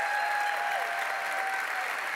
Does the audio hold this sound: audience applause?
yes